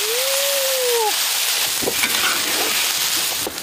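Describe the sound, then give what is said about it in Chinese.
Loud, steady hiss and crackle as herbal broth made with five-finger peach root is poured onto marinated chicken sizzling in a pan, the sizzle continuing throughout. “鸡肉表皮迅速收缩，鸡肉香飘散出来。 加入刚才我们煲的 五指毛桃水， 五指毛桃水 秘制水儿。”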